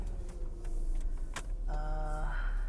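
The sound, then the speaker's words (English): Car engine hums steadily while driving around town, a low continuous rumble with a brief tonal whine near the end. “So anyways, let's go. I am basically driving around town here.”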